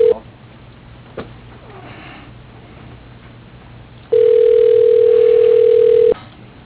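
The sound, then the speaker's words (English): Telephone line tones as a call connects: a brief tone at the start, quiet line hiss broken by a couple of clicks, then a loud, steady low tone holding about two seconds before cutting off abruptly, with thin narrowband phone quality. “Okay, dialing.”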